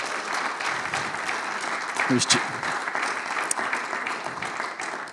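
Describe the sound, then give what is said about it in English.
A church audience claps steadily to welcome guest speakers, with a voice talking over the applause. “And all God's people said, put your hands together, folks, and let's welcome them.”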